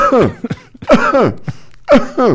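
Three hoarse coughs open a song, each a short voiced burst that drops in pitch, spaced about a second apart, with a few smaller throaty sounds between them.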